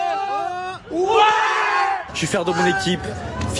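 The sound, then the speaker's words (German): PSG fans cheering outside the stadium gates after following the match on their phones: excited yells and whoops rise over crowd babble, with a surge of louder shouting near the middle and mixed voices toward the end. “genau wie die vielen PSG-Anhänger, die vor den Toren des Stadions auf ihren Handys das Match verfolgten. Erst zittern, dann jubeln.”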